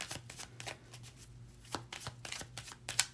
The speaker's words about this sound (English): let us take a few Lenormand cards and see if we can get a direct message about something.